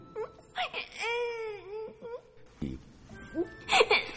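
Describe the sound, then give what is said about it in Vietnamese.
A little boy, a young novice at a Buddhist temple, crying in long drawn-out wails with wavering pitch, broken by short whimpers and sobs. “Nè con, thôi, thôi mà, đừng khóc vậy mất hết tinh thần chiến đấu bây giờ.”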